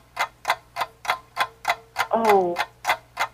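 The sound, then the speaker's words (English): A quiz timer ticks steadily at roughly three crisp ticks per second, and a short voiced tone breaks in once midway through the run of ticks. “I'm going to read the question, and then the timer will start.”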